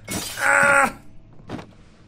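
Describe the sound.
Something breaking apart in a video game makes a crunching, shattering burst with a short ringing, tonal middle. A softer second crunch follows about a second later.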